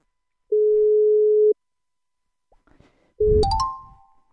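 A telephone ringback tone sounds while a call is being placed, one steady, even tone lasting about a second, then after a pause a louder tone that steps up in pitch over a noisy burst.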